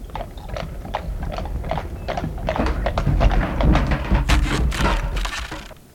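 Hooves and wheels of horse-drawn carts on a road: many irregular sharp taps, clops and knocks over a low rumble, growing louder toward the middle before tailing off.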